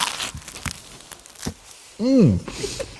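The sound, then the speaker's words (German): Biting into toast topped with cheese and sausage produces a few sharp crunching crackles and a tearing, crinkly rustle, followed by a brief voiced hum that sweeps up and down in pitch. “Ich habe jetzt hier einen Toast mit Käse und Yachtwurst und beiße einfach mal rein und schau mal nach, wie das schmeckt.”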